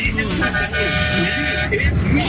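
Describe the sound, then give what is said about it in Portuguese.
Car horns honking during a street honking celebration in Pouso Alegre, Minas Gerais. Sustained horn tones sound amid busy noise, with people talking over them. “Ó, os caras buzinando, ó.”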